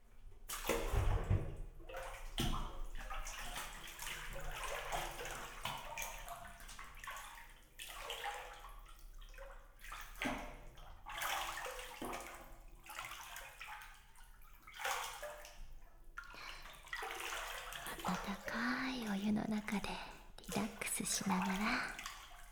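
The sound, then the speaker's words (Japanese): Hot bath water poured over someone's shoulders in a tub, in repeated gushing splashes with trickles and drips between them, while a voice talks softly at times. “きれいにしような。あ、肩にお湯かけてあげるから”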